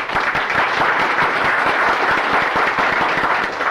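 Applause in a legislative chamber as members welcome a guest page. Many hands clap in a dense, even, loud patter that holds steady from start to finish.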